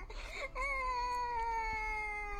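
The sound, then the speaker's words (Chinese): A child cries in a video game with a sustained, harmonic wail that slides gently downward in pitch after a short, broken start. “哭声嘛，哭声嘛，我听不得小孩哭”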